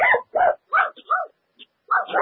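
A dog barks and yips in a quick, irregular series of sharp, loud bursts, with a couple of brief gaps and a few softer, shorter yelps between the main barks.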